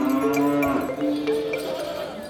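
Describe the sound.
Cattle mooing among the livestock at the Salon de l'Agriculture, several drawn-out lowing calls overlapping one another at a fairly loud, steady level.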